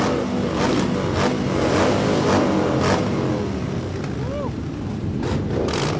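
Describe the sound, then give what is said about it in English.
Motorbikes ride through a bar during a record attempt involving 127 bikes, with a continuous roar of engines and several revving surges as machines pass. “Bojangles Saloon Bar, where the world record attempt for 127 motorbikes through a bar is being attempted right now”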